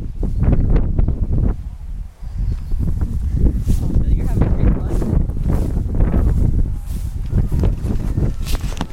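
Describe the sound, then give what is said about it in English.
Wind blows outdoors across rocky ground, making a loud, continuous buffeting rumble against the microphone. Dense low roar fills the whole stretch with only brief dips in strength. “You can hear the wind. The wind sounds really nice.”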